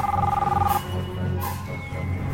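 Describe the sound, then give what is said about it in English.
A mobile phone rings with one short burst of high, warbling electronic tone at the start, then falls silent, leaving a low, steady background murmur. “His mobile phone rings.”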